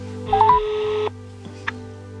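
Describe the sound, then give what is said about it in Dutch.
A telephone number is dialled to call a neighbour: a brief run of electronic dialling tones, followed by a faint click in an otherwise quiet background. “Ik ga even een van de buren bellen vragen of zij hem misschien kennen.”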